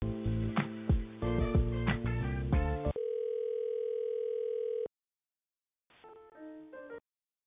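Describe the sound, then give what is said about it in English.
Telephone line tones while a helpline call is transferred to a representative: a short run of melodic tones, then a steady single-pitched tone held for about two seconds, a silence, and a brief further burst of tones. “I will be bringing on the representative now. You may hear a ring or slight pause.”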